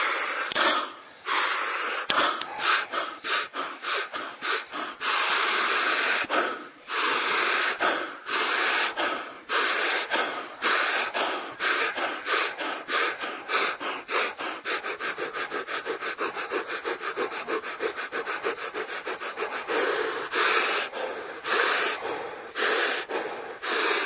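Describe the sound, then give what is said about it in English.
Breathing exercise with fast and slow inhales: many breaths drawn through the nose and mouth, some long and drawn-out, others short and quick in rapid rhythmic runs, each pulled in with an airy, rasping hiss and released without effort. “when I say fast and slow, we're only talking about the inhale. Why? Because the exhale, what do? You just let it go. You're not making the exhale faster or slower. You're making the inhale faster or slower.”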